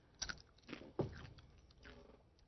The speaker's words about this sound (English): I'm going to dip a little of the apple into the hummus.